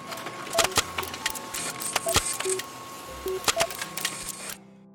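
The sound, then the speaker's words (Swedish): A printer printing out a story: a run of sharp mechanical clicks and snaps mixed with a few short, steady beeping tones and a low whir, which stops abruptly near the end. “Då skriver jag ut sagan åt er. Den kommer här.”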